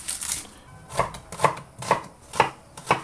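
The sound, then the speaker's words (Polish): Knife cutting a large onion into thick slices for onion soup: five crisp, evenly spaced chops on a board, fairly loud, with a brief rustle before the first cut and no talk. “Kroję cebulę w grubsze takie plastry, bo ona i tak się nam w zupie rozgotuje.”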